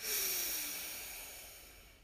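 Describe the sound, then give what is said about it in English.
A slow, deep breath drawn in and let out during a guided breathing exercise: a soft, airy hiss that stays steady, then gradually fades, faint and alone. “Deep breath in and out. Ah. Deep breath in”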